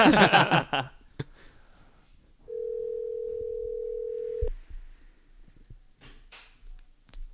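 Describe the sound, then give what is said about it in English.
A telephone dial tone holds as a steady, even hum for about two seconds, then stops with a click. Faint noises come before and after it. “Dial him up.”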